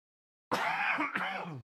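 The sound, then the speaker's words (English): A single harsh, drawn-out cough or throat clearing from someone with a lingering chronic cough, one loud raspy burst with a brief catch in the middle, alone with no talk. “Apologies for the ongoing chronic cough that does not want to leave me alone.”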